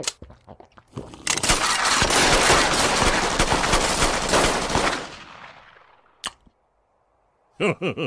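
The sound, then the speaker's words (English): Rapid gunfire from people shooting guns while drinking beer: a dense burst of many shots that runs for about four seconds and fades, then one sharp crack and a few short, loud bursts near the end. “Homer, they're all drinking beers and shooting guns”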